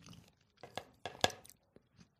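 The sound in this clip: Crunchy chewing and biting as a person eats a cold meal during a WhatsApp video call: several close, crisp crunches in an uneven rhythm with brief quiet gaps between them.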